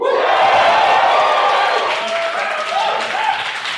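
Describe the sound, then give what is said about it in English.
Live audience at a show in Manchester cheering loudly, with dense clapping and whoops forming a continuous roar that eases slightly toward the end. “You guys are loud.”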